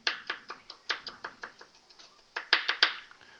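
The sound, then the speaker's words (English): A knife dices an onion in a fast, steady series of many crisp knocks, each chop sharp and evenly spaced. The chopping is heard alone without talk. “Again, I'm dicing this onion up because I don't want any big hunks.”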